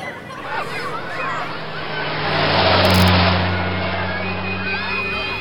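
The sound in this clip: A vehicle speeds along a street in Cabildo with a broad roar that swells to a peak midway and then fades, over steady background noise.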